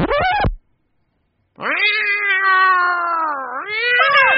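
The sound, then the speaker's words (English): Cat meowing from inside a bag: one short cry, a second of silence, then a long, loud, drawn-out yowl that dips in pitch and climbs again near the end. “不过在你把这只可怜的猫从这个口袋里放出来之前，我不想听你的秘密。你看它叫得多可怜，我要把它放出来”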